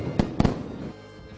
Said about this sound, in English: That's a firework, whoa, actually.